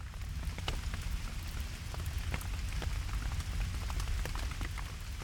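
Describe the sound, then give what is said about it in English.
Rain falls during scattered showers in Toronto. A steady, even patter is broken by frequent sharper drop hits over a low rumbling wash, with no voices. “those sounds you're hearing right now, that rain? Yeah, that's reality today.”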